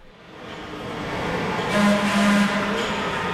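A Los Angeles Metro D Line subway train rumbles along. Its broad roar builds over the first second and then holds steady, with faint whining tones running through it. No voices are heard.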